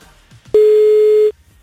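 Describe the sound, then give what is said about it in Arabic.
Telephone call tone as a radio station phones a contest winner: one loud, steady mid-pitched tone lasting under a second, starting and stopping abruptly, with quiet background before and after. “عم نتصل هلأ بالرابح الثاني. خلينا نشوف مين حيكون رابح الثاني معنا. يا ربي رد على التليفون.”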